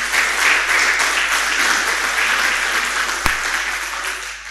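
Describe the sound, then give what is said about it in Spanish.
Applause for a brother during an evangelical church gathering: dense, steady clapping from a crowd that holds an even level throughout, broken by one sharp click near the end. “Aplauso para el hermano.”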